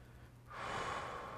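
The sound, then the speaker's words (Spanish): A deep inhale during a spoken spiritual lesson: after a short quiet moment, a soft, airy intake of breath swells and holds steady for about a second, with no talk. “Inhala profundo.”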